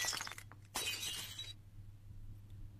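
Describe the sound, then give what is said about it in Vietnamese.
A glass beer bottle is smashed down and shatters with a sharp crash: a quick first burst, then a longer spray of breaking glass that cuts off abruptly, fairly faint over low background noise. “cầm chai bia đập đánh xoảng một cái xuống.”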